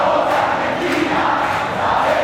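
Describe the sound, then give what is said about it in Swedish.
A stadium crowd booing at the trophy presentation after a World Cup football final: a dense, continuous roar of many voices that holds at a steady, loud level throughout. “Och väntade burop när USAs president Donald Trump och internationella fotbollförbundet FIFAs president Gianni Infantino intog planen för att dela ut pokalen.”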